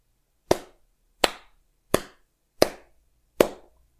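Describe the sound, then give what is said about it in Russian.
Five sharp, ringing hand claps from a person in a main hall, evenly spaced about one per second, each with a short decaying tail, with no other sound between them. “Звонкий и ясный звук хлопков прозвучал в главном зале, заставив всех посмотреть на источник шума. Человек, который хлопал, медленно вставал со своего места.”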